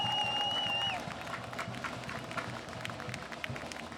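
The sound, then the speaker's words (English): Crowd applause at an outdoor protest in front of a concert hall: dense, steady clapping spread across the whole clip, with a few brief high tones in the first second. “A round of applause for Lav!”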